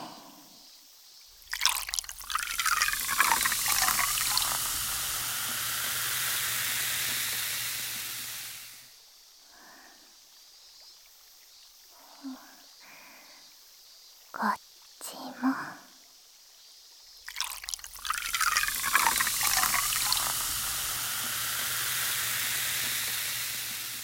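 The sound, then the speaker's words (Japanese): Liquid poured close to the ear makes two long, hissing, splashy pours. Between them comes a quieter stretch of soft fizzing and scattered drips. “じゃあちょっと後ろに失礼して、先輩の耳元でこれを注いであげますね。”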